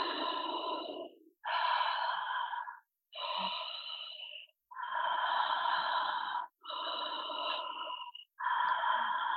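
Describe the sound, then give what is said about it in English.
Connected breathing, with rapid inhales and exhales chained together without pause. Six loud, breathy strokes run in a steady rhythm, separated only by brief gaps, with no talking. “So you take in as much air with no pause between the inhale and the exhale. So as soon as you exhale, you inhale and then exhaling.”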